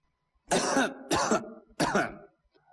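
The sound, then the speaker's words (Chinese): A voice imitates coughing in a Chinese storytelling performance: three harsh, hoarse cough bursts, loud and alone against silence. “还直打咳嗽”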